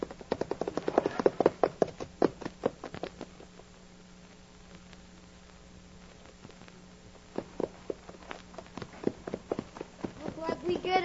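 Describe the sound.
Horses gallop off in a western radio drama as a band of riders sets out, hoofbeats clattering in loud rhythmic bursts at the start, easing in the middle, then returning near the end, with voices over them.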